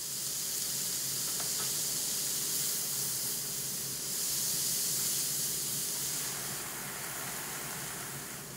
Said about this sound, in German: Der Bratensatz darf mit Sellerie und Zwiebelwürfeln und einer guten Prise Zucker karamellisieren.